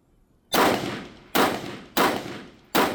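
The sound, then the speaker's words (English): Four AR-15 semi-automatic rifle shots ring out during practice rounds at a target. Each is a loud, sharp crack with a short decaying tail, fired at slightly uneven intervals with no talk between them. “This time, give me two rounds. And I had fired an AR-15 several times before rounds. Semi-automatic, so I was familiar with that operation.”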